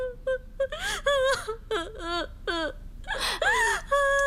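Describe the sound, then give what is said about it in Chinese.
A person cries and whimpers through a string of short, wavering high-pitched sobs and wails, with sharp gasping breaths between them. The bursts come in quick succession and stay fairly loud throughout. “你哭什么呀？啊，你别哭啊，有话说呀，不许哭。”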